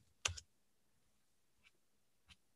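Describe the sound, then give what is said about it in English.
Typing a search on a computer keyboard: a few faint, crisp key clicks, a quick double tap first and then two single clicks spaced well apart in near silence. “If you actually Google Oilers captain, let's type it in.”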